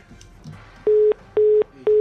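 Busy tone after a phone call drops: three steady, mid-pitched beeps of equal length, evenly spaced by short silent gaps, coming after a brief stretch of faint line noise.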